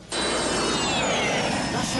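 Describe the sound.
Airplane sound effect: a loud, steady jet roar that starts abruptly and holds to the end, with a high whine that slowly drops in pitch.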